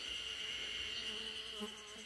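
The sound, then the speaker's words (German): A bee buzzing amid Japanese nature outdoors, a steady, continuous faint hum that holds an even pitch throughout with no voices. “Oh, eine Bienensumse. Eine Bienensumse ist ja auch mit am Start.”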